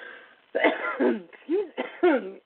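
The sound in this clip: Coughing, a few rough, throaty coughs and throat clearing in uneven bursts with short pauses between them, fairly loud and with no other sound.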